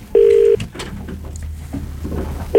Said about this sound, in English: Should we call the studio? Yep, do it. Give them a dial.